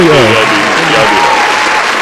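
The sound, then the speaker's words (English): Audience applause for a birthday, a loud, steady wash of clapping with a voice talking over it from start to finish. “let me get the round of applause going for Blaze's birthday, y'all.”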